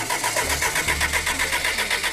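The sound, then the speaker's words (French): A car engine turns over on the starter of a Lancia Delta Integrale Evo 2: a steady, loud run of even, rhythmic cranking pulses lasting the whole clip with no voices. “On dirait une Lancia Delta intégrale Evo 2 flambant neuve. Mais faut-il se fier aux apparences? La réponse est non, surtout pas. Vas-y, démarre.”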